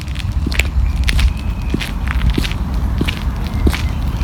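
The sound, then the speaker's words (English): Quick footsteps of a person walking briskly outdoors up toward a pond, a steady series of crisp steps over constant low background noise. “I'm going a bit faster. I want to walk up here towards this pond.”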